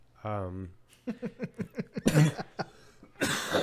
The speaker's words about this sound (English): No, I've went and coughed.